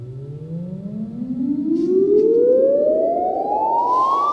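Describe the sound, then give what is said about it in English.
An acoustic measurement chirp recorded inside Notre Dame cathedral: a loud, steady tone that sweeps smoothly and continuously upward in pitch from low to high, with fainter harmonics rising alongside it. “A chirp is a tone that swoops from very low frequencies to very high.”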